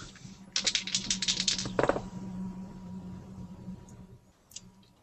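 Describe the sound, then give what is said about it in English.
A washing machine running indoors during a tabletop dice game: a steady low hum throughout, with a burst of dense, rapid rattling clatter in the first two seconds before the hum carries on more faintly. “Who switched the washing machine on?”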